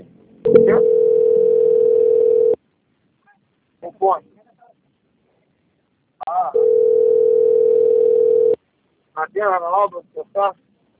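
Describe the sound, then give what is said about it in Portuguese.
A steady telephone line tone plays while a call is being transferred, two long unbroken beeps of about two seconds each. Short bursts of voice-like sound come between and after them. “eu vou direcionar a sua ligação para o seu controle de qualidade. Desliga não, tá? Só um momento.”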